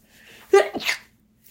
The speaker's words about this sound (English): Bless you. Oh my gosh. Oh, I got one more. I feel it. Can you achieve it? Yes. Maybe. Okay, I did it. I achieved it. I achieved my three sneezes.